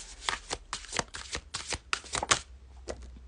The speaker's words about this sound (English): Okay, let's pull a card. Let's pull some medicine for this week.